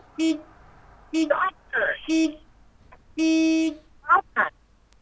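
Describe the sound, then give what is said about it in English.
Car horn honking four times in short bursts, the last one held longest. Voices break in between the honks. “I'm flashing the lights and I'm honking the horn.”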